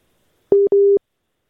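A telephone busy tone sounds after a dropped call: two steady, identical beeps, the second a little longer than the first, then silence.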